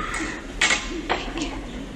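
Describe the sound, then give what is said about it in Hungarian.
A small spoon drops while a tea tray is being set, giving a bright metallic clink followed by a couple of lighter ticks over a low, steady hum. “Lejti a kis kanalat. Felveszi.”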